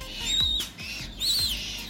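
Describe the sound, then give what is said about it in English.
Five baby Humboldt penguin chicks at London Zoo give thin, high peeping calls, two squeaky whistles that rise and fall, soft and faint over a low background rumble. “that's the sound of five baby Humboldt penguin chicks who've been born at London Zoo.”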